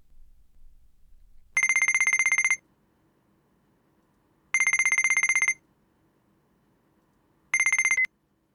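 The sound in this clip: A telephone rings in three bursts of bright, trilling electronic tone separated by silent gaps, the last burst cut short, with no voices.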